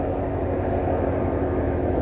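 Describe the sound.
A low-flying airplane passes overhead with a heavy, steady roar dominated by deep rumble. It stays loud and nearly constant throughout, with no voices over it.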